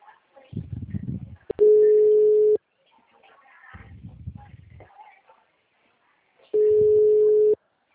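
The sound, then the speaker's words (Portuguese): Ringback tone of an outgoing telephone call: two steady, mid-pitched one-second beeps separated by a long gap, with faint low murmuring voices in between. “Essa que eu tô ligando é Bruno.”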